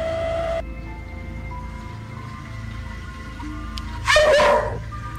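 A dog gives a single short, high yelping bark near the end, rising sharply above a steady background hum and hiss.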